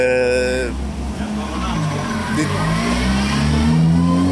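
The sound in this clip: A racing car, a fast red-and-white model on a track, accelerates away. Its loud engine roars steadily and climbs in pitch as it speeds off.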